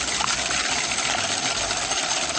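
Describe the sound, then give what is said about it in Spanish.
A lottery ball drum is spun for a prize draw, giving a continuous, dense rattling and clattering of balls tumbling inside, steady and fairly loud throughout. “A ver, bolillero. Traigamos bolillero. Últimos papeles le vamos metiendo ya. Dale. El bolillero. Bolillero, sí. ¿A mí? Giró, ahí va.”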